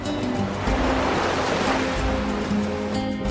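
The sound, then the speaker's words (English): Ocean waves along an island coast with mangroves and beaches: a steady, dense rush of surf with a faint low rumble, continuous and unbroken throughout. “with waves cascading over them”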